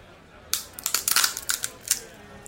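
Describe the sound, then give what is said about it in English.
A walnut cracks in a nutcracker: after a brief quiet start, a burst of many sharp, dry crackles and snaps follows in quick, uneven succession, then tapers off. “It was, in fact, a walnut being cracked in a nutcracker.”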